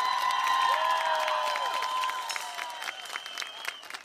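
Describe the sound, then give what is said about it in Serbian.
Audience applause, with some cheering, after a live music performance. Dense clapping starts loud and thins slightly toward the end. “Pa da li smo zaslužili jedan aplauz, podršku?”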